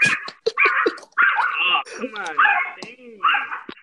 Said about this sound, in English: The dog is messing up our audio